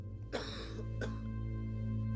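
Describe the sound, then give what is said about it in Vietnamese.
An old man coughing: two rough, throaty coughs, the first longer and the second short, heard over a steady low hum. “Tam gia thở dài, ho sù sụ, một hồi mới lên tiếng đáp”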